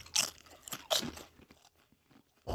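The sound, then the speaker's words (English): Crunching bites of Japanese Lay's potato chips: a few sharp, brittle crunches spaced apart, with softer crackling chewing between them and no voices. “Japanese Lay's. They're in there. They're weird. All right. I don't know why I keep naturally want to like eat it like this.”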